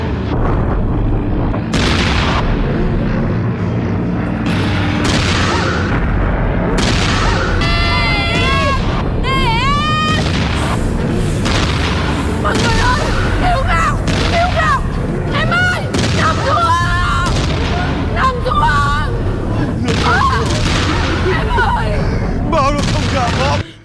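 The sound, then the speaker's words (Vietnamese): Bombs drop and explode, with whistling tones cutting through a relentless, loud barrage of booms and blasts that never lets up. “Nó thả bom đây.”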